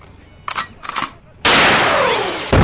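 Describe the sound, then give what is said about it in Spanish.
Gunshots ring out: a couple of lighter, short bursts come first, then a loud, sustained blast of gunfire runs on to the end. “Tenemos más disparos, amiga Sara Rivera. Tenemos varios.”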